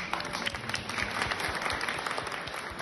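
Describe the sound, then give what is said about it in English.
Dense audience applause at an event celebrating a ring-giving vow: a steady, full wash of many hands clapping that holds level from start to end, with no voices over it. “round of applause.”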